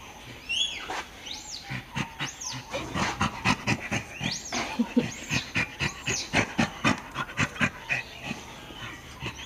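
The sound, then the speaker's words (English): Chimpanzee laughter: a long run of rhythmic, breathy pants, many quick bursts at an even pace, joined early on by a few high, squeaky calls. “would you like to hear a chimp laughing?”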